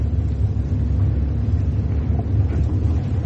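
Car driving, a continuous low engine rumble that holds steady and fairly loud for the whole stretch, with no clear change in pitch and no voices.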